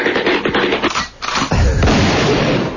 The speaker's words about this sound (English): That's exactly what it would sound like if a guy was running with a gun and blew his head off.